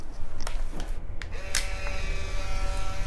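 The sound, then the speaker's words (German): An old camera takes a photo. A few sharp mechanical clicks and snaps are followed by a steady whirring motor tone, all over constant background noise. “Davor mache ich noch ein Foto von Ihnen.”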